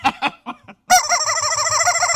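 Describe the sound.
A rooster crows in one long, loud, wavering call that runs to the end, preceded by a few short clucking bursts.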